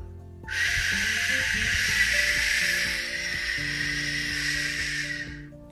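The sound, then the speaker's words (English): Rushing hiss of a waterfall that begins abruptly after a short quiet moment and then holds as a steady, broad, even roar to the end, with soft tonal music running underneath. “That is not the sound of a deer. That's the sound of a waterfall.”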